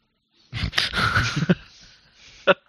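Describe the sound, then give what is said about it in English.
Sled dogs pulling a dog sledge: a dense burst of snorting, panting dog noise runs for about a second, followed by a quieter stretch and one more short, sharp burst near the end. “You start off again driving the dog sledge.”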